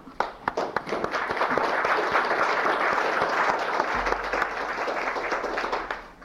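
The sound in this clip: Loud, sustained applause in a legislative chamber welcoming introduced guests: a dense wash of many hands clapping at a steady level for several seconds before tapering slightly at the end.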